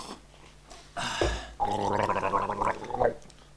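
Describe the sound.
Someone gargles a strawberry bubblegum-flavoured drink. A short noisy gulp comes first, then a brief pause, then a sustained wet, bubbling gargle runs for about a second and a half before cutting off.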